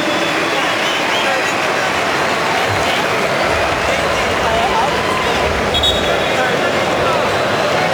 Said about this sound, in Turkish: İsveçli futbol severler de alkışlıyor Lewandowski'yi.